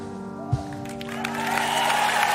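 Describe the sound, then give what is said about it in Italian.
Audience applause after a stage performance swells up beneath sustained tones of music, starting faint and growing into a steady wash of many hands clapping by the end. “Ci uniamo anche noi agli applausi per questa esibizione, complimenti”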